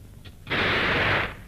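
A gunshot, fired at a man calling out at a cave mouth in a wartime tale, is heard as one loud, harsh noisy burst lasting under a second. It starts abruptly after a faint lead-in and cuts off.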